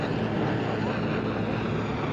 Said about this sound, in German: Der Hubschrauber über uns wirft Gasgranaten ab.